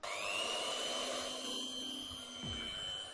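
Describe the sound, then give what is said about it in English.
An electric whisk beats 200 grams of margarine and 200 grams of caster sugar in a big bowl, giving a loud, continuous high motor whine over a whirring churn that holds steady throughout. “Then beat them together really well with my electric whisk.”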